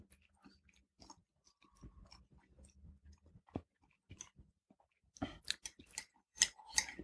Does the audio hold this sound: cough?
no